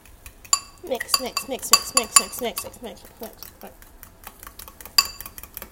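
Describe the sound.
Utensils clink and scrape against a bowl while pancake batter is mixed, a quick, irregular run of many light metallic taps and chinks, fairly faint, at times in rapid bursts.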